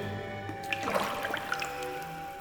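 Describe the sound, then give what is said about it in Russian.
Water drips from the damp ceiling of a cave grotto, a scattered run of small, faint, high plinks over a low steady background. “Сырость пещеры. Со сводов падают прозрачные хрусталики воды.”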